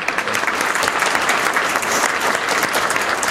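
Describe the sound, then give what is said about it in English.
Audience applause welcomes two speakers who proposed a tax cap initiative, a dense, steady wash of many hands clapping, sustained evenly at full strength throughout. “So if you would please help me welcome both of our speakers, the proponents of the initiative.”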